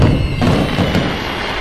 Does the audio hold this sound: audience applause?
no